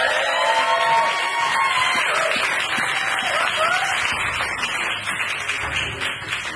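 Applause and cheering from an audience for a game prize winner: a dense, steady wash of clapping with whoops and cheers mixed in, holding loud for the whole stretch and easing slightly near the end.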